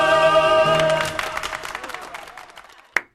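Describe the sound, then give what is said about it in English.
A live studio audience applauds as the closing bars of the theme from the 1970s sitcom It Ain't Half Hot Mum end. The clapping fades into sparse, scattered claps, then goes quiet apart from a couple of sharp clicks. “That's our live studio audience I was talking about.”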